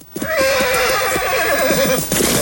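A horse neighing and rearing up on its hind legs: one long, loud whinny with a wavering, shaking pitch over faint thuds of hooves.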